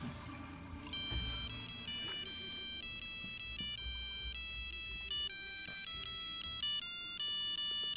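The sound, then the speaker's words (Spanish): A telephone rings with an incoming call for a doctor: an electronic ringtone plays a bright, stepping melodic pattern of beeps that repeats steadily throughout over a low rumble. “tiene usted una llamada muy importante de, la secretaria de salud, la doctora Topete”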